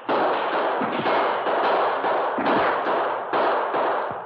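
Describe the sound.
Gunfire exchange between gunmen sheltering behind boulders beside a trail and defenders of a mountain pass, a dense, continuous crackle of many overlapping shots with sharper thuds breaking through now and then.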